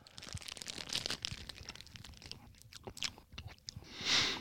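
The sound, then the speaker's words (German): Someone bites into and chews a Hostess Twinkie snack cake, making many soft, wet, squishy chewing noises with small crackles. The sounds are faint and irregular, and no talk is heard. “Jetzt beiße ich mal rein.”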